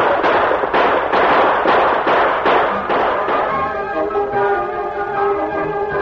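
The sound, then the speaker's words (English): Gunshots ring out in a stagecoach holdup: many sharp bangs in quick, fairly regular succession, loud against a steady background. “rode from cover when they heard the shooting”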